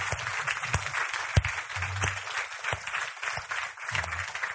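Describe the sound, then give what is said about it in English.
Audience applause welcoming home a group of returning members as they stand, a steady, dense patter of many hands with a few sharper claps standing out and low voices murmuring beneath. “can we just as a homecoming give a round of applause as you guys stand? Can you do that? Those who went, can you guys stand up? We can welcome you home.”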